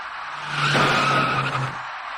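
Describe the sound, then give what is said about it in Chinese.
Tire screech of a taxi skidding on a busy ring road just before it rear-ends another car. A single sustained squeal swells through the middle and eases off over a background of traffic noise. “驾车从后面开上来的这位出租司机没有注意到前面的车辆已经减慢车速，转眼过后，出租车的前部撞上了前车的尾部，一起两车追撞的事故就发生了。”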